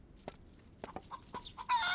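Chickens clucking in a farmyard coop: a quiet scatter of short clucks, ending in a louder, drawn-out squawk.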